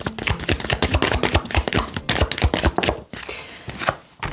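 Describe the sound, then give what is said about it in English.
Tarot cards being shuffled, a rapid run of crisp flapping riffles for about three seconds, then quieter sliding and a final snap as a card is drawn. “let's get an advice card for this week's energy advice spirit for this energy”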